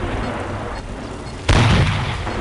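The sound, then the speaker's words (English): A tank firing standard shells in a video game: one sudden, loud cannon boom that bursts out partway through, over a low steady rumble, and then rings on. “Standard shells. Well, let's see if we can get rid of him with standard shells.”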